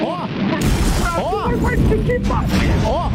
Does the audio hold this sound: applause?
no